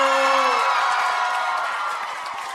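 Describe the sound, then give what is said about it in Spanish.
A crowd of worshippers at a church service shouts for joy, a loud sustained mass of voices that slowly fades over a couple of seconds. “Y los que lo están sintiendo, que se atrevan a dar un grito de júbilo.”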